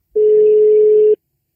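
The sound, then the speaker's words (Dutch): A single steady telephone tone from a call being dialled, lasting about one second at a medium-low pitch, loud and alone, then silence. “Allee, kom, bellen maar.”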